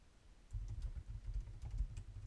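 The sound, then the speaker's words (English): Typing on a computer keyboard while someone reads and replies to a message: a quiet, irregular patter of soft key clicks over a low, steady hum, with no talk. “I apologize if it sounds like I'm reading and typing, because I am.”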